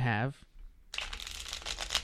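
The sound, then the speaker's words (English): Uno playing cards being shuffled, a brief voice followed by a continuous papery riffling rustle that runs for over a second. “So Uno is a really simple game, all right? We each get 7 cards, and then you place a card down that matches either the color or the number.”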